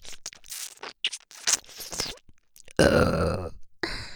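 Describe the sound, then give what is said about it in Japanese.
A deep, drawn-out burp close to the ear, loud and standing alone, preceded by a series of softer, scattered scraping and rustling sounds. “これに耳元ゲップ重ねたら”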